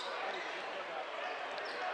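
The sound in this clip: A basketball is dribbled left-handed in the backcourt during a game, the bounces quiet and blended into a steady wash of crowd noise without clear separate beats.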